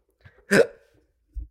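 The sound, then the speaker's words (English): A single sharp hiccup from someone with anxiety hiccups, loud and brief, followed by a soft low thump. “And I'm having anxiety hiccups.”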